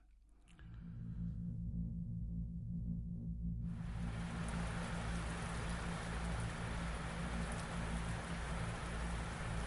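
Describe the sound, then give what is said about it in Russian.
Heavy rain falling on a city at night, a dense, steady hiss that swells in after a few seconds and continues over a low, continuous hum. “Дождь обрушился на ночной город, жадно облизывал черепичные чешуйки крыш, истосковавшиеся по влаге кроны деревьев, каменный панцирь мостовых и тротуаров”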